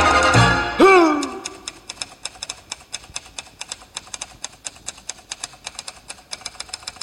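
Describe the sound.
Typewriter keys clack in a long, fairly regular run of many sharp strikes after a louder, ringing onset, with no voices.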